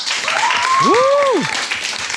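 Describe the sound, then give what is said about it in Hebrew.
A crowd claps hands at the Palmachim air base celebration for the newly formed squadron 193: steady, dense applause at a strong level, with one drawn-out cheering voice rising and falling in the middle. “נשמע כפיים? נשמע כפיים?”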